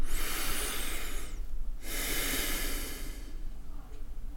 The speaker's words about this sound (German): Jetzt atme ich mal tief ein und aus, damit man hören kann, wie weit das stört.